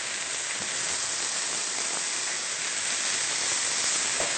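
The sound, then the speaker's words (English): Leeks sizzle in a pan as they cook toward golden brown, making a steady, even hiss with faint crackles throughout and no talk over it. “We'll allow the leeks to cook for 2 to 3 minutes, or until they start to become a little golden brown before we add the mushrooms.”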